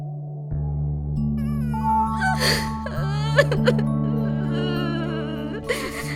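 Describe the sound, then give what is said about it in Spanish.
A girl crying on the floor, with breathy whimpers, sobs and gasps that rise over a sustained, steady musical drone. “Se sentó en el suelo y empezó de nuevo a llorar.”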